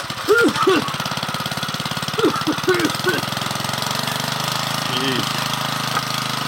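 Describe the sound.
An old machine, imagined as a random topic generator in a garage, runs with a chugging, knocking engine rhythm that stays steady throughout, with a voice heard over it now and then.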